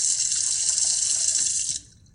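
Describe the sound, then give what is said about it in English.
Water splashes in a bathroom sink as a man splashes it onto his face, a steady loud rushing hiss that cuts off abruptly near the end. “leans into his sink and splashes water on his face”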